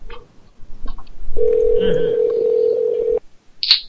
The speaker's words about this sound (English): I liked part of the show where the phones ring.